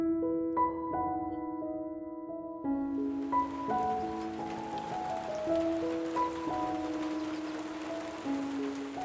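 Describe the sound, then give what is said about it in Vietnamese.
Steady drizzling rain sets in after a few seconds as a soft, even hiss and keeps going beneath slow, gentle melodic notes that play throughout. “Cơn mưa rả rích kéo dài đã mấy ngày nay khiến cho bà Hiền”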